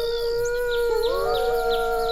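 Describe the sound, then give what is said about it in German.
A wolf-like howl heard on an island at night: a continuous, sustained tonal wail that shifts upward in pitch partway through and holds steady to the end, with no voices. “Es ist dieses Heulen, das unsere Freunde von der Insel vertreibt. Das ist ein Wolf.”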